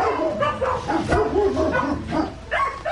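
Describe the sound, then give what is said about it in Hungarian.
A large dog barks at an animal rescue call, giving many deep, rough barks and yips in a quick, uneven run that stays loud throughout. “ide jöttünk egy nagyobb termetű kutyuskához”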